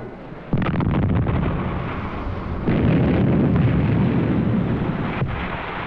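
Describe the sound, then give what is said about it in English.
A missile strikes a destroyer in a live test: a sudden loud blast gives way to a sustained, heavy roaring rumble that surges again partway through. “This was the first live test against a destroyer. It was hit from a distance of 56 kilometers.”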